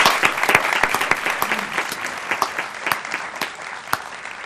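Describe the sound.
Applause for the young women of the Rose Festival Court, honoured at a City Hall ceremony. It is a dense, steady patter of many hands clapping, fairly loud, with no voices.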